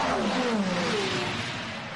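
A Genesis race car's engine roars past on a race track, its pitch sliding downward as it goes by, loud throughout and easing slightly at the end.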